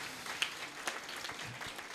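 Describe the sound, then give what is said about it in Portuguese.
Faint applause for Jesus during a church service, thin and scattered, with a few sharper claps standing out from the quiet patter. “Dê um forte aplauso a Jesus.”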